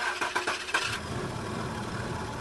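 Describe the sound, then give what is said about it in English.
An old car engine cranks with a few quick, uneven chugs for about a second, then catches and settles into a steady, rough-running idle. “Do you have a car that sounds like this?”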